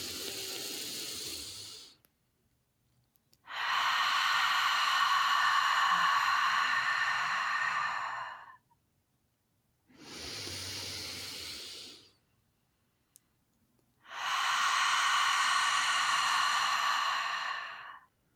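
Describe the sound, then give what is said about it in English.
Slow, deep breathing during a guided breathing exercise: three long, airy breaths rise and fall with quiet pauses between them, after a softer breath at the start, each a steady hissing whoosh of air with no talking. “I'm just going to have you focus your mind on your breath. So feeling the expansion and feeling the relaxation. And we're just going to do 2 more.”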